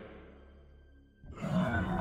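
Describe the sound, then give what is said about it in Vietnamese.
A monster's deep, rough roar bursts in loudly after a quiet stretch of low droning, then stays strong and growling to the end. “Bỗng nhiên nó gầm lên một tiếng.”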